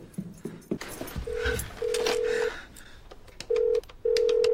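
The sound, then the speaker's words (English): A 1986 house phone gives off handset clicks and handling clatter, then a steady low tone sounds in four separate bursts, with sharp clicks breaking them up. “Over and over again, he tries a number, then hangs up and paces to the hall to burn off anxious energy. He taps in the number one more time.”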